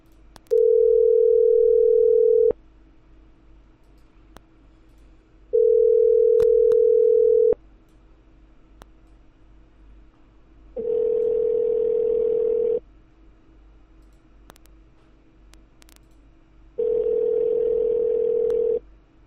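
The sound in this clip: Telephone tones heard while placing a call to a microfinance service: four long, steady, mid-pitched tones, each about two seconds, separated by regular pauses of similar length, with no talking.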